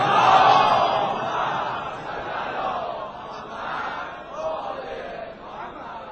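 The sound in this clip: A crowd recites salawat together in unison at a religious gathering. The massed wash of voices starts loud and gradually eases over several seconds.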